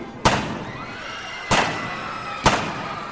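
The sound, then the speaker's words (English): Three gunshots fired point blank, each a sharp, loud crack with a brief ringing tail, spaced unevenly about a second apart over a steady low background noise. “Chalino shoots Chapo Perez 3 times point blank.”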